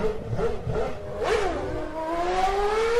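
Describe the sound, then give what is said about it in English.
A human voice imitates V8 race cars at a Melbourne race weekend, producing buzzy engine-like whines that rev and sweep upward in pitch several times, loud and continuous, with no other sounds. “we just started hearing this like, because like the V8s are racing at the time. And we'll make that sound effect again.”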